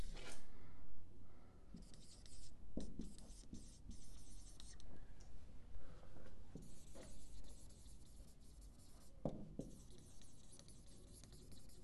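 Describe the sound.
Scratchy writing as parts are written out during a lecture course: irregular rubbing and scraping strokes that come in uneven bursts for the whole stretch, at moderate level with no talk.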